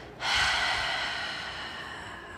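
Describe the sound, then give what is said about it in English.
Deep breath exhaled slowly through the mouth during a guided breathing exercise: one long, steady breathy rush that begins sharply and tapers gradually, with no talk. “Inhale it all through your nose. And then you hold and exhale it all through your mouth.”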